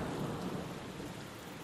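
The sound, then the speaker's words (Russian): Rain from a storm over a city, falling on dusty pavement, makes a steady, faint hiss with a low rumble underneath and no voices. “Казалось, что на город надвигается буря. На западе быстро росла темная стена облаков. Когда я вышел из машины, на пыльную мостовую упали первые капли дождя.”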